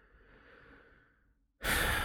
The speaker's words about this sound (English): Tap on the side of the hand, take a nice big deep breath.